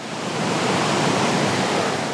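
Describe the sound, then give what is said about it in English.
Steady, even rushing of a creek flowing in the distance, with a waterfall nearby, holding at a constant level throughout with no voices. “You can hear the creek in the distance.”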